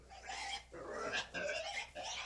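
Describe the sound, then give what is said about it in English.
Piglets, sows and boars in a laboratory pigsty, waiting for hog cholera vaccination, give faint, rough squeals and grunts in several overlapping bursts. “We had the pigsty of Anyang Laboratory, and we have quite a few pigs, baby pigs, mama pigs, papa pigs, all ready to be inoculated with the hog cholera vaccine.”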